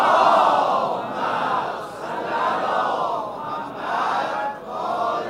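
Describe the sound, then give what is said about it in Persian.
A large crowd loudly chants salawat, a devotional invocation, in unison at a religious gathering. The voices swell and fall in several long, repeating phrases. “هر چقدر ارادت داری صلوات بلند بفرستی”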